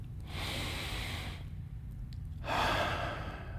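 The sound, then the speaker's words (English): Deep breathing: two long, soft, airy breaths separated by a short pause, the second a little louder than the first, with no talking. “I want you to just stop for a moment and just breathe.”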